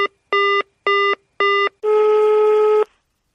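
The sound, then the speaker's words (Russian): Telephone dialing tones as a number is dialed: four short, evenly spaced beeps at the same pitch, followed by one longer, sustained tone, with no voices. “Мы звоним Ксении Николаевне.”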